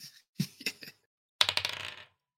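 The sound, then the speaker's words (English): A twenty-sided die is rolled, giving a few light ticking taps and then a quick rattling clatter that fades out, all fairly faint. “We haven't gotten a roll from Gimli in a while. Can you just give me a d20?”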